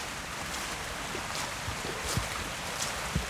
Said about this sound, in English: Water tumbling over into the weir here.